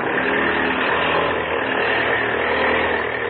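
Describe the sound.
Propeller airplane engine at full throttle, a loud, steady, unbroken drone that holds level throughout, with no voices over it.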